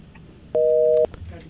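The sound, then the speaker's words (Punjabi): A telephone busy tone sounds as a phone line drops mid-call: one loud, steady, evenly pitched burst lasting about half a second, with faint voice sounds around it. “Line drop ਹੋ ਗਈ ਹੈ ਬਾਈ ਜੀ ਨੇ ਮੇਰੇ ਨਾਲ ਇਸ ਸਮੇਂ ਜੀ।”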